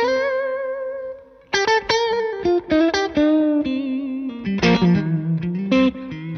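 Electric guitar with a clean tone through a high-headroom amp, volume lowered to around 6 or 7: a long sustained note fades, then a brisk run of many picked notes and bends follows, with no talking.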